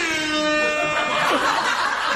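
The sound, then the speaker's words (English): An air horn sound effect blares on a talk show, a steady, brassy tone rich in harmonics, with laughter rising over it in the second half. “The guy, the audio, air horns. Whoever's in audio has been waiting to use that one seriously for like 12 years.”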